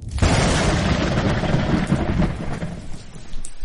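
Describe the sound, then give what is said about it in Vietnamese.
Thunder rumbling in humid early-summer weather, a loud continuous roar with rain hissing beneath it, steady for the whole stretch with no voices. “Bên ngoài đột nhiên vang lên tiếng sấm ầm ầm.”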